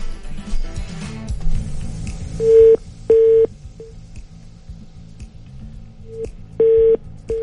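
Telephone tones ring out while the next call is dialed, a few short steady mid-pitched bursts with long gaps between them, over a low background murmur.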